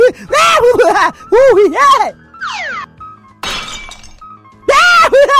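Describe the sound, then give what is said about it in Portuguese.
Window glass breaking: a single bright, noisy shattering crash lasting under a second, set between bursts of loud, excited talking. “Eu vou quebrar mais uma janela para fechar com chave de ouro.”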